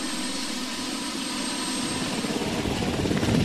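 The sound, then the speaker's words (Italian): A helicopter descends to land at an air base in Delaware: a steady, whirring engine and rotor drone with a thin high whine, growing slightly louder and more throbbing toward the end. “L'elicottero di Barack Obama che scende nella base aerea di Dover, nel vicino stato del Delaware.”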